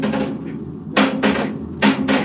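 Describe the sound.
A metal bar knocks against a giant worm clinging to a spaceship wall, producing several dull, resonant thuds in quick succession, some in close pairs, each carrying a low ringing tone.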